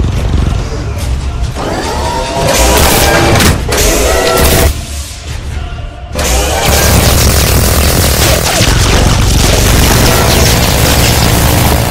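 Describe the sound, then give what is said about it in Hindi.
Artillery shells explode on targets in a heavy barrage, with loud, continuous rumbling booms and blasts broken by a brief quieter lull partway through. “अभी तक 1200 गोले fire हुए हैं, 2 मजीद targets की तबाही confirm है।”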